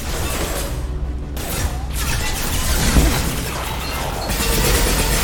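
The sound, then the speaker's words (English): A mechanical door opening in a video game, a sustained, loud grinding rush of noise with creaking, ratcheting texture that runs steadily for several seconds without talk. “Anyway, going through a door.”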